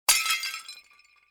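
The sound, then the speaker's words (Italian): A thrown plate hits the ground and shatters in one sharp crash, followed by a short tinkling scatter of fragments that quickly fades out. “Immaginiamo di lanciare un piatto verso l'alto. Dapprima il piatto rallenta sempre di più fino a fermarsi e in seguito riaccelera verso la superficie terrestre finché incontra un ostacolo.”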